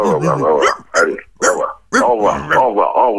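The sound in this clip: A dog named Toutounette barking at home: short, sharp barks and yips in irregular bursts, mixed with a person's voice.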